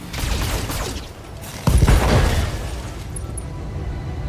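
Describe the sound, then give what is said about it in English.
A mech in a video game fires all its lasers at once: a dense mechanical rumble, then a sudden heavier booming burst partway through that settles into a sustained noisy roar, with no talk. “We'll just fire all of our lasers. I don't think the ammo has a cost, so we're just gonna fire everything.”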